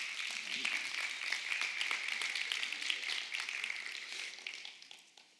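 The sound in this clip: A church audience applauds as a woman is invited up to the stage. The clapping is fairly soft, a busy patter that holds for several seconds and then fades out at the end.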